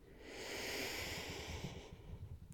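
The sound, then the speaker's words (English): A slow, deep breath in and out during a guided calming exercise, heard as one long, steady, airy hiss that swells and then fades away, with no talking over it. “Can you take a deep breath for me? Yep, I'll do it with you.”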